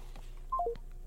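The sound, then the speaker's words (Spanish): Telephone dialing tones while a call is being re-established: three short keypad beeps in quick succession, each a little lower in pitch, over a faint steady background hum. “vamos a restablecer la llamada con Iracema Andrés”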